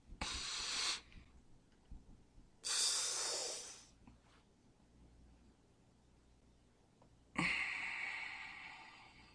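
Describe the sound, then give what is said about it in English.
Slow, quiet breathing through the nose after swallowing saliva, heard as three soft hissing breaths of airflow separated by near-silent pauses, with no talk. “swallow saliva twice, and slowly exhale through your nose. Wait, let me try it.”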